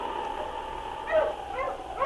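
Sled dogs give a few faint, short, high-pitched yips and whimpers over a steady background hum.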